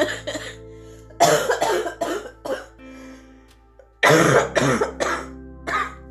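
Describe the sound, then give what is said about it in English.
A person in a painful coughing fit: repeated bouts of loud, harsh, hacking coughs in quick succession, separated by short quiet pauses, with a rough throat-clearing edge. “Pinnacle, excuse me, sorry for just hacking up a lung.”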